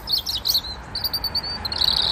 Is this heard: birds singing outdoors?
yes